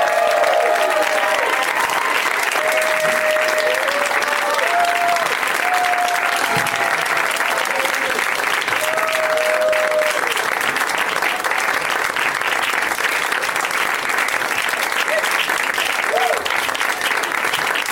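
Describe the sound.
Sustained audience applause welcoming four guests onto a live comedy stage: dense, steady clapping that stays loud and even for the whole stretch, with scattered whoops and cheers rising above it.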